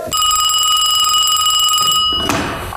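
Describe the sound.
A telephone rings with a steady, bright electronic tone that holds for about two seconds, loud and alone, before cutting off into a short burst of noise.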